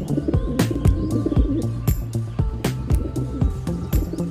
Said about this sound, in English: pumped up and in prime condition, a male pigeon is a sight to behold.